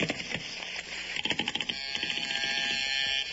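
A telephone being dialed gives a quick run of sharp mechanical clicks midway, then a steady hum. No one speaks.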